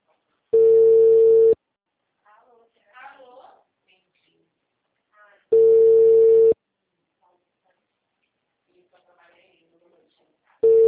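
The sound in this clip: An unanswered phone call produces ringback tones, steady buzzing pulses about a second long repeating roughly every five seconds, two full and a third cut off, with faint talk in the quiet gaps.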